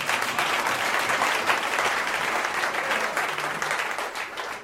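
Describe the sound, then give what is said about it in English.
Audience applause for young people from an evangelism campaign: dense, even clapping that holds steady throughout with no break. “I think they deserve a round of applause.”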